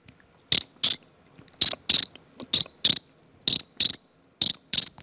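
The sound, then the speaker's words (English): Cricket chirp imitated by a voice using only the teeth: ten sharp, crisp clicks in five quick pairs, evenly spaced and bright, with quiet gaps between them. “like a cricket sound, you know? Oh, yeah, that's definitely a cricket sound. Yeah, it's like using only like teeth sounds.”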